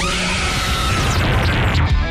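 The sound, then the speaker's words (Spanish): A woman screams in anguish, crying out for her children: a loud, harsh, sustained wail that runs unbroken for about two seconds over a dense, clattering din, with no talk. “Vaga por las calles gritando a voz en cuello y exclamando con dolor: ¡ay, mis hijos!”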